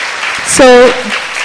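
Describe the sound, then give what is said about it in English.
Audience clapping after a class at a festival, a loud continuous wash of applause with a voice briefly rising above it midway. “Now that you clapped”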